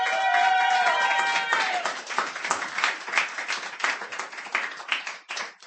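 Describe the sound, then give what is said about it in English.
Audience applause at an open mic poetry reading, welcoming a first-time reader: dense, steady clapping that thins slightly toward the end, with a voice briefly over its start. “Give him a hand.”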